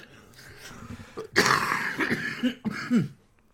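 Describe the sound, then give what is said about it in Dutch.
A congested person with a lot of mucus coughs in a few harsh, rough bursts. A loud chesty hack comes first, followed by smaller throaty coughs that fade out. “Ik hoop niet dat je nu je ballen eruit gehoest hebt.”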